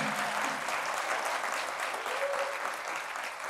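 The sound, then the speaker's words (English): A standing audience at a community event gives steady, dense applause, a thick even wash of many hands clapping with no pause. “The audience stands to give Jennifer Barnhart a standing ovation. It shows how much support she has within the community.”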